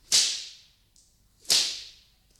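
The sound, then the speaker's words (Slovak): Two swishes of a whip whistling through the air, each a sharp hissing crack that quickly trails off, evenly spaced and heard alone without voices. “A vzduchom často bič zasviští.”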